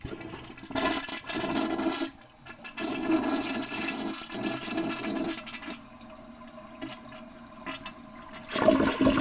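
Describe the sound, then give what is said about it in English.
An American Standard toilet, one said to flush poorly, is flushed. Rushing, gurgling water runs for about nine seconds, fluctuating in strength, with a renewed surge of swirling water near the end. “it is a different toilet because of the different size of the roughen. And being that it's a different toilet, it also sounds different.”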